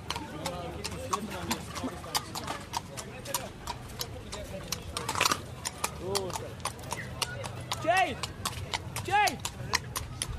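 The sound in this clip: Hooves of a grey horse clip-clopping at the Sunday horse market in Smithfield: a quick, steady run of hard clacks throughout, with people talking over them.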